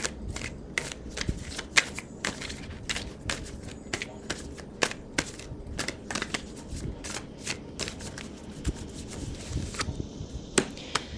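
Tarot cards being shuffled and drawn during a reading: many crisp, sharp flicks and snaps in a fairly steady, rapid run throughout.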